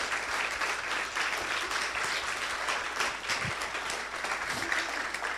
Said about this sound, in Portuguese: dá uma salva de palmas ao Senhor.